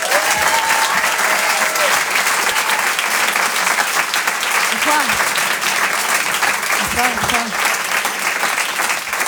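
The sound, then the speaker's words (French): Loud, dense applause from a comedy club audience giving an ovation fills the whole clip without a break, and a few shouts rise briefly above the clapping. “Je vous demande une ovation s'il vous plaît pour Elisabeth Buffet.”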